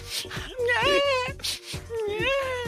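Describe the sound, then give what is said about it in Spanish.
A baby whimpering and crying with a stuffy, choking sound, a few wavering, pitch-bending wails separated by short catches of breath. “Qué lindo, mi bebé. El niño se está ahogando. Nadie lo limpia a la pobre criatura.”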